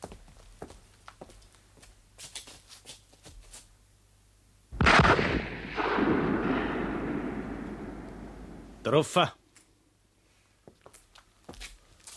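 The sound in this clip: A loaded gun fires one loud shot that rolls out in a long decaying rumble, followed a few seconds later by a shorter, sharper burst; light tapping sounds come before the shot.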